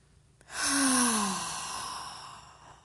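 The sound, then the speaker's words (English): A single long, deep breath during a guided breathing exercise swells loudly, holds as a breathy rush, then slowly fades. A faint voiced hum falls slightly in pitch near the start, and no one talks. “Again, inhale. One more deepest breath you've taken all day.”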